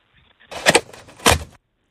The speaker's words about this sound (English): What is a secret sound? Just pulling a paper towel out of a paper towel dispenser.